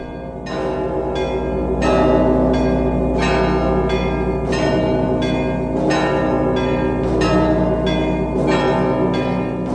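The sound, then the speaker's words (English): Church bells chime in a steady, rhythmic peal of many loud strokes that ring on without pause, with no voices over them. “The church chimes float through the air”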